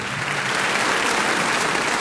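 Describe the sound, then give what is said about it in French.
A wave of audience applause greets a young boy jazz musician as he is called onto the stage at a jazz concert. Loud, dense clapping holds at an even level throughout. “Une vague d'applaudissements submerge l'enfant tandis qu'un projecteur l'inonde de lumière.”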